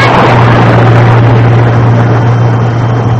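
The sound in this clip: Car speeding around a corner at about 70: a loud, steady engine roar with a rushing wash of noise and a low drone, easing slightly toward the end.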